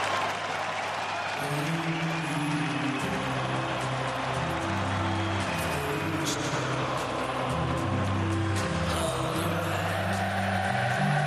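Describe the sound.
A stadium crowd at Anfield sings the Liverpool football club anthem. Many voices hold long, swelling notes together in a steady, loud chorus under a constant crowd roar.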